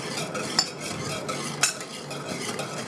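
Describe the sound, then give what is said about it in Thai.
A mixture stirred with a utensil in a container: a continuous soft scraping swish, broken by two brighter clinks against the side, faint and with no talk. “แล้วก็คนไปสักพักหนึ่งนะคะ”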